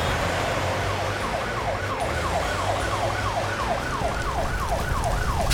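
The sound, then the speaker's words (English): Emergency siren wailing in rapid, repeating rise-and-fall sweeps, loud and steady throughout, with a low engine rumble underneath. “Wait, that siren.”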